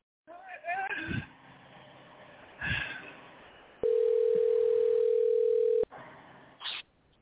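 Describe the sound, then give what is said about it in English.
A telephone ringback tone sounds while a call is being placed: one loud, steady tone lasting about two seconds, coming after bursts of talk and followed by a brief sound. “Let's see if Queen B answered the phone.”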